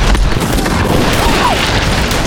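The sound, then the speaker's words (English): Revolver gunfire from many guns firing at once forms a loud, dense, continuous barrage of overlapping booming shots with no pause. “When the volume of fire increased to 10 revolvers, it caused Smoke and Laloop to swerve to one side.”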